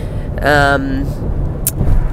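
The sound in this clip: A car drives along an express lane, a low steady road and engine rumble running throughout while a voice speaks briefly over it.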